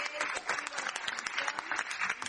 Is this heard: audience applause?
yes